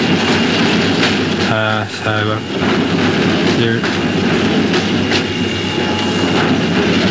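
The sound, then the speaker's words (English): An express train on the Frankston line passes through a station with a loud, steady rumble and clatter throughout, broken by a few brief tonal blasts early on. “that's the Frankston Express there coming through at the moment.”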